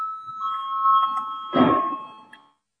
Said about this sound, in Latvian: Lūdzu zvanu, balsosim par ceturto juridiskā biroja priekšlikumu.